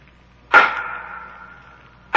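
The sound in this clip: Sharp rapping from a prison chamber in a radio drama: one hard knock with a long ringing decay, then a second knock cutting in at the very end.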